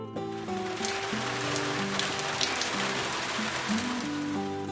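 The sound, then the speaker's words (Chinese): Rain falling on leaves: a dense, steady patter and hiss of drops with a soft, low melody playing underneath. “我听到雨水打在树叶上的声音，啪嗒啪嗒的。”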